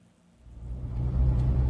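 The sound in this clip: Low engine rumble and road noise from a car driving down a street past a long line of voters in Georgia, starting faint and swelling to a steady, heavier drone.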